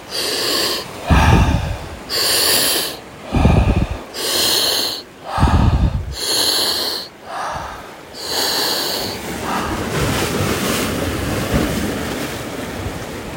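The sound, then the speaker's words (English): Loud, rhythmic breaths during a breathwork exercise, each inhale and exhale a forceful rushing burst. Spaced at first, the breaths quicken and blur into an almost continuous stream toward the end, with no talking. “We're going to quicken the breath. We'll begin in 3, 2, 1, go.”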